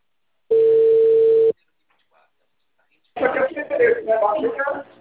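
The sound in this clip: A telephone tone after a dropped call: one steady, even beep lasting about a second, followed by near silence and then a person talking.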